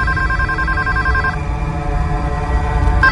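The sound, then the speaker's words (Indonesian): A telephone rings near closing time, the bell ringing in one steady burst, pausing briefly, then starting again, over a constant low rumbling background. “ketika jam-jam mau tutup, selalu saja ada telepon berbunyi. Dan tidak pernah ada yang mau mengangkatnya.”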